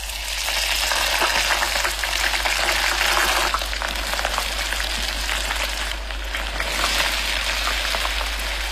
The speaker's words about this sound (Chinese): 羊尾油洁白无瑕，直接食用太过油腻，但却风味十足。小火加热逼出油脂